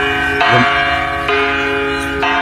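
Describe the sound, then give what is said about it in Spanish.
A church bell tolls with three strong strikes about a second apart. Each stroke leaves a long, rich ringing hum of stacked tones that carries into the next. “Os voy a poner un sonido de campana. A ver si descubrís qué iglesia, dónde puede estar sonando esa campana.”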